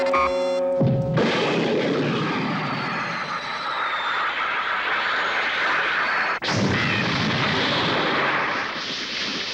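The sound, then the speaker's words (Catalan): A hand cannon fires two heavy booming blasts, one about a second in and another several seconds later, each followed by a loud, sustained rumbling roar. “En Silver surt de la caseta amb un canó de mà. Mira el cel. Ah, és això. Veu passar en Goku sobre el núvol, enfoca el noi al punt de mira i dispara.”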